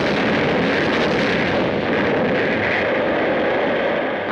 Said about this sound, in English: Torpedoes, Mr. Caldwell. Take another look. Gee, that's the first time I ever saw a sub get knocked off.